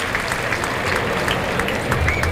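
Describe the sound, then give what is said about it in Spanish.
Bullfight audience applauding a mounted bullfighter in the ring. Dense, steady clapping from a large crowd holds throughout, with a slight swell toward the end. “Y Lea Vicens, que se va a los medios. El público le aplaude.”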